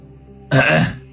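A single throat clearing, a short, fairly loud and raspy burst that stands alone against quiet surroundings.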